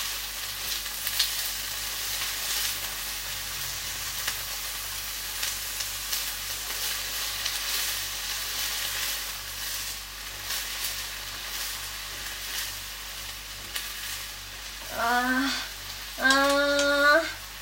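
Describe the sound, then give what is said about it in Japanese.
Pre-cut vegetables sizzle as they are stir-fried, a continuous crackling hiss with occasional stirring scrapes, rising in loudness toward the end. “野菜炒めってさ、ほんと単純に美味しいよね。もうカット野菜でやってるんで超一瞬です。”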